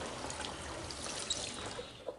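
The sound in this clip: Water running at a washroom sink as hands are rinsed: a faint, steady trickle with a few soft splashes, no talk.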